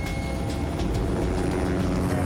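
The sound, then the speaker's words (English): A helicopter in flight gives off a steady, low droning of engine and rotor that holds an even, fairly loud level throughout, with no talk over it. “he flies the helicopter and looks around”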